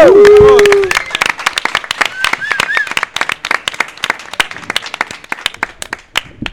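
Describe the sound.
Audience ovation at a concert in Can Capa welcoming two performers: a dense burst of many overlapping hand claps that thins gradually into scattered, uneven claps toward the end.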